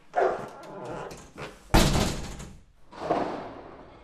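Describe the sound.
A pet dog gives a few loud barks, and a sharp slam-like thump comes midway between them.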